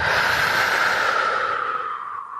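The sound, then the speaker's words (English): A long, deep breath drawn in and let out, a steady airy rush that fades slightly toward the end, heard alone without speech. “So take a deep breath in and breathe out.”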